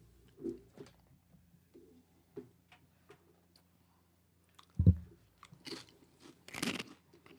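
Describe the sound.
Crunchy yellow corn tortilla chips being chewed: many faint, intermittent crunches, with a few louder bites standing out.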